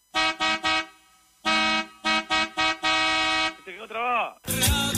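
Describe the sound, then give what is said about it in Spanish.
Stuck car horn blaring in eight loud, brassy blasts, short triple toots alternating with longer held honks, followed by a brief wavering tone and a burst of noise at the end. “Lo único que sé es tocar la bocina. Escuchá. Se quedó trabada.”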